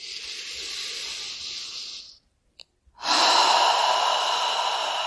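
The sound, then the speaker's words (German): Deep breathing during a guided relaxation exercise: a long, steady airy breath, a brief silent pause, then a louder, sustained breath with a broad hissing rush. “Und noch einmal einatmen.”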